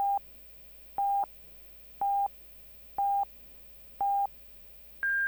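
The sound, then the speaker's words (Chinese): Hourly time signal on a Chinese news radio station marking two o'clock: five short, steady mid-pitched beeps at one-second intervals, followed by a longer, higher-pitched tone. “现在是北京时间14点整。”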